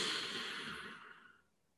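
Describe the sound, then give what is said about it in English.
A deep, slow breath during a guided breathing exercise: a soft, airy rush that holds steady, then tapers away to silence. “And now inhale again, very, very deeply, retaining the breath below the navel.”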